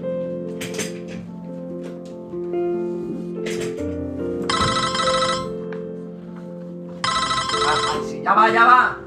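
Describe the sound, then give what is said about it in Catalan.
A telephone bell rings for an incoming call. Two bright, buzzing bursts of ringing stand out, with shorter chimes earlier, over a steady tonal background. “En López rep una trucada des de Kimoton.”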